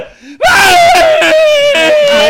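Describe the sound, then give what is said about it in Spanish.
A person screams excitedly during a lottery ball draw for a pickup-truck prize: a brief low sound, then one loud, high, sustained scream lasting about two seconds, with its pitch drifting slightly downward. “¡No grite! ¡Casi, señores! ¡No grite!”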